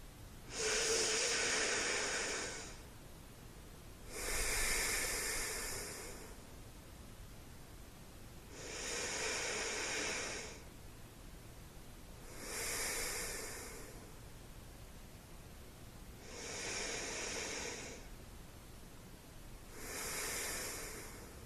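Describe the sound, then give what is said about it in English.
Slow deep breaths at bedtime: three long breathy cycles, each a soft hissing inhale followed by an exhale, separated by quiet pauses at an even, unhurried rhythm. “Let's take 3 deep breaths together.”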